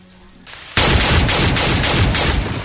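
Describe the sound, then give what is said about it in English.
Gunfire from a fired gun bursts in very loud and abrupt after a short quieter rustle. It carries on as a sustained, rough blast with rapid repeated pulses until the end. “That was loud. It was loud. Wow, sorry about that, guys. But yeah, he didn't waste any time. He learned how to fire a gun real quick.”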